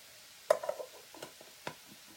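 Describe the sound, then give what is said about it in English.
A metal lid is set onto a cooking pot on the stove: a sharp clink, a few small rattles and another faint clink over a soft sizzle. “I've covered the pot, I've taken it down to medium.”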